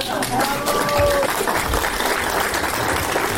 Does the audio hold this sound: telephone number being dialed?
no